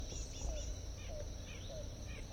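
Faint, short bird calls repeat a few times over a steady hiss and a low background rumble.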